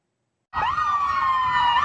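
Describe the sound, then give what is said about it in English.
Ambulance siren rushing to hospitals in Louisville, loud and steady after a half-second of silence, its wailing tone holding high with slight wavering in pitch. “When we arrived in Louisville, ambulances were rushing to hospitals only to wait almost an hour to drop off patients because emergency rooms were full.”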